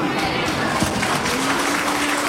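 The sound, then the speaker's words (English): Audience applause for a first-time speaker at a devotional gathering, a thick, steady patter of many hands clapping at a constant level throughout. “Give Samir another round of applause. This is his first time, you know. First time speaking in front of an audience.”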